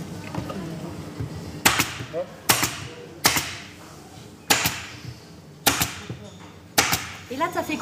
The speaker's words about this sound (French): Ben j'ai agrafé le dessus, les côtés.